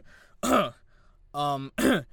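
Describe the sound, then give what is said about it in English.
Throat clearing from someone with something stuck in their throat: three short, voiced, gravelly bursts separated by brief pauses. “oh, I think I got something stuck in my throat.”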